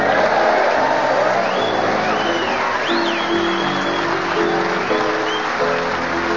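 A studio audience applauds and cheers to welcome the host's assistant at a comedy show: dense, steady clapping with whoops and shouts that holds at an even loudness from start to finish.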